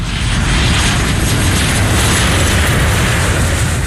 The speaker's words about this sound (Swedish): Vi sitter i ett flygplan och vi är på väg någonstans och håller på att landa i en stad.